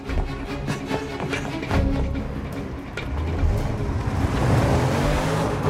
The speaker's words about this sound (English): The car drives down a cobbled ramp to a quayside.